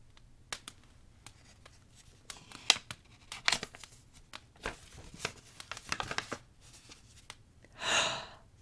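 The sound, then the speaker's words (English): A paper envelope is handled and opened, with scattered crinkles, rustles and small tears, ending in a longer, louder rip of paper. “You said it was a lot, but this is just an envelope. Okay, I'll open it.”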